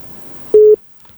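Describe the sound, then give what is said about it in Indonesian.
A single WhatsApp phone call tone: one short, steady, mid-pitched beep that holds briefly at even loudness, then cuts off into near silence. “Jadi tidak ada balasan sahabat budaya, kita angkat lagi di telepon WhatsApp.”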